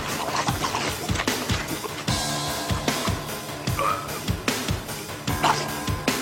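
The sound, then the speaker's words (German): Rapid, rhythmic crunching of a biscuit being eaten quickly, with many sharp bites and chews in steady succession at a moderate level and no talk. “esse den Keks! Schnell!”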